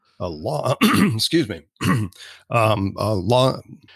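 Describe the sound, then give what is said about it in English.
A man clears his throat in a series of loud, guttural, voiced bursts, some short and some drawn out, broken by brief pauses and heard on their own. “I had to clear out the old throat here.”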